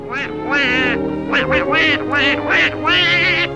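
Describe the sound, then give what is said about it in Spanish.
A human voice imitates a cartoon duck, quacking in a garbled, nasal, buzzy run of several bursts with wobbling pitch, like duck-voiced babble, loud and alone. “El encargado de ponerle voz fue originalmente Clarence Nash, quien dobló al pato durante 50 años en más de 120 cortometrajes.”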